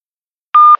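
One short, clean electronic beep from an answering machine just before a recorded phone message, a steady mid-pitched tone with a small faint blip trailing after it.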